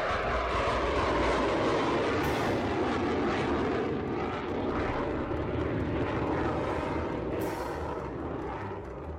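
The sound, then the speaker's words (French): Airplane engine roar of a stolen aircraft flying off: a loud, broad, steady drone that carries through the whole clip and eases off slightly toward the end. “repéré par des agents de la défense, il vole un avion et s'enfuit.”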